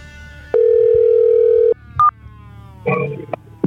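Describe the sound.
A steady telephone dial tone holds for about a second as a call is placed. A single short keypad dialing beep follows, then a brief, noisy burst of sound.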